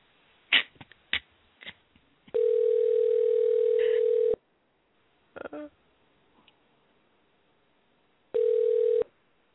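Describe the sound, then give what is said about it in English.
A landline telephone dial tone sounds twice as a steady, bright electronic hum. Several sharp clicks and handling noises come before it, and a brief burst of noise falls between the two tones. “So I'm dialing right now. Here we go.”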